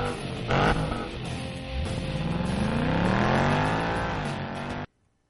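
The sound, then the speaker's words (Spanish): A car engine revs hard and loud, its pitch climbing steadily over several seconds as it accelerates, then the sound cuts off abruptly. “prepárense a encender motores, giren la llave y arrancamos”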